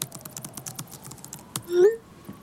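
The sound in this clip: Typing on a keyboard as someone writes a message: rapid, light clicking keystrokes in a quick, uneven run, then a pause and a short tonal squeak near the end.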